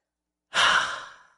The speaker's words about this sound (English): And all you got to do is simply exhale